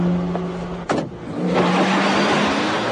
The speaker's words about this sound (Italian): salì in macchina e partì.